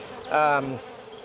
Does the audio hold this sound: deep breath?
no

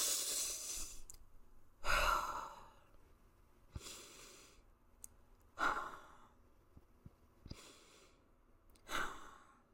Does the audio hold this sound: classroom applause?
no

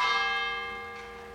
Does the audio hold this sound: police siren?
no

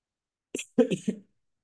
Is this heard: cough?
yes

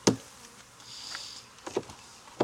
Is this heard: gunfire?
no

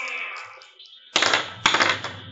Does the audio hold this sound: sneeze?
no

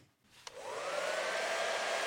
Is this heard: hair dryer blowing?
yes

